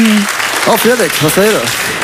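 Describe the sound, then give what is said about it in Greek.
Applause after a live music performance, a steady crackling wash that runs through the whole clip beneath a man's speaking voice. “Χειροκροτήματα, χαμούλης όμορφα.”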